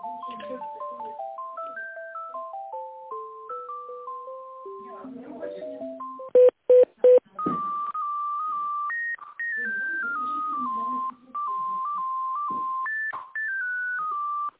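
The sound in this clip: Electronic hold tones play while a phone call is transferred to another person: a stepping melody of pure beeps, then three short sharp bursts, then longer sustained tones that shift in pitch with brief gaps between them.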